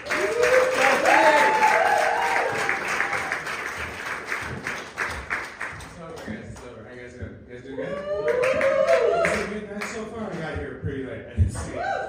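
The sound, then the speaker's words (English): Audience applause and cheering for a stand-up comedian at a comedy club: dense, loud clapping for about six seconds that thins out, then voices talking over a lighter scattering of claps. “Give it up nice and loud for Mark Carsky.”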